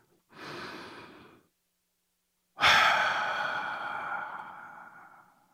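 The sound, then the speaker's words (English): A deep breath taken alone: a slow, airy inhale, then a pause, then a louder, longer sigh-like exhale that gradually fades. “Let's go ahead and take that deep breath.”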